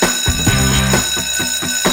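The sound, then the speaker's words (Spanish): An electric bell rings to mark the start of a new class at an entrepreneurship academy. The ringing is bright and continuous, with a few pulsing surges in loudness, and no voices over it. “Está sonando la campana, el timbre, no sé ya lo que es, y eso nos recuerda que comienza una nueva clase aquí en la sala, en la Academia de Emprendedores.”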